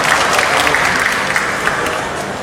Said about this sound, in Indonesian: Mari Bapak Ibu, kita berikan tepuk tangan kepada anak-anak yang sudah mendengarkan suara.